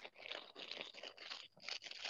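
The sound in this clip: A package is torn open by hand during an unboxing, giving faint, crinkly tearing and crunching in a few uneven bursts separated by brief pauses, with no talk.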